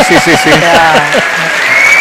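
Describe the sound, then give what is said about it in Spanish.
Audience applause during a political speech. A broad wash of clapping runs beneath a prominent speaking voice and fades slightly toward the end. “Lo mejor son los aplausos.”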